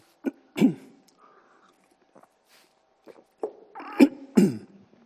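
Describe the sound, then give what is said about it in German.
Soft gulps and mouth noises come from a speaker pausing to take a quick drink. A few short, quiet bursts are scattered across mostly silent stretches. “Ich muss mal kurz was trinken”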